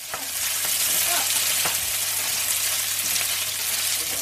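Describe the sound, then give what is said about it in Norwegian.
Food sizzles steadily in a frying pan while a pot is stirred during evening dinner preparation at home, a constant bright hiss broken by a few faint clicks and scrapes of a utensil. “Han steker, hun rører gryta.”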